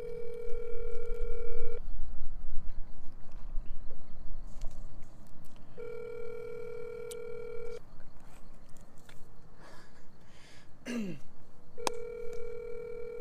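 Ringback tone of an outgoing phone call waiting to be answered: a steady buzzing tone repeats in three long bursts separated by pauses of a few seconds, and the last burst is cut off.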